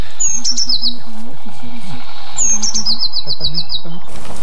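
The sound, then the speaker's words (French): Blue tit song with two high, thin phrases, each opening with a bright note and running into a quick series of rapidly repeated notes, clear and fairly loud. “La mésange bleue. Une très commune aussi, mais très discrète. Elle fait toujours 2 à 4 notes répétées.”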